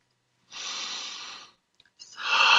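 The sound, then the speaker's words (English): Slow, deep breathing during a guided breathing exercise: a long, airy, hissing breath of about a second, a short pause, then a second, louder breath beginning. “Let's take a breath together. All right. As you take the next breath, notice,”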